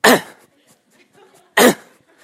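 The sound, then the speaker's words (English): Two habitual coughs from a man running, one at the start and another about a second and a half later, each a short loud harsh burst followed by quiet. “every 10 seconds he has this habitual cough”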